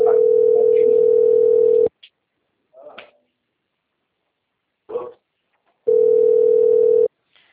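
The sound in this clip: A steady telephone tone is heard before a phone call, in two long stretches separated by a few short, faint bursts and clicks. The tone is even and unbroken, with no talk over it.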